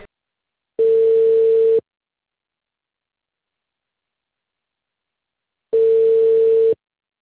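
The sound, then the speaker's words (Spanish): Ringback tone on an outgoing telephone call: two steady, mid-pitched beeps, each about a second long, separated by a long silent gap. “Ya le estoy llamando.”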